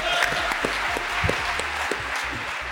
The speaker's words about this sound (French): une ovation pour Stéphane Fritz, le président de Guy Hockey. Bravo, bravo, bravo, bravo.